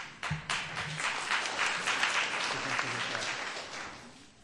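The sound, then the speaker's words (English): Audience applause at a university class event, a steady wash of many hands clapping that holds for several seconds and eases slightly toward the end. “Save some of that applause.”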